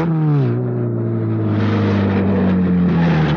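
A car engine roars loudly as it is driven fast around corners. Its pitch dips early, then holds steady and slowly climbs again, with no talk.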